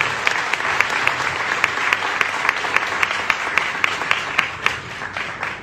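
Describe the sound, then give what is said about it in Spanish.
Loud applause from an audience at an event in Argentina: dense, even clapping that holds steady throughout, with sharper individual claps standing out. “Ahora sí, fuerte el aplauso.”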